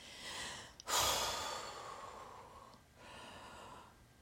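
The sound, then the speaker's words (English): A deep breath drawn in through the mouth makes a long, loud airy rush that tapers slowly. A second, softer breath follows, with no talking. “You just breathe in and you just feel the relaxation course through your veins.”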